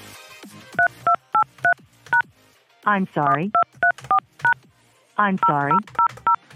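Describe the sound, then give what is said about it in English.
Telephone keypad tones as a password is entered and the pound key pressed: many short, steady two-pitch beeps in quick clusters, twice interrupted by a brief voice. “Please enter your password. Then press pound.”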